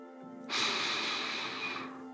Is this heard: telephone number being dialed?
no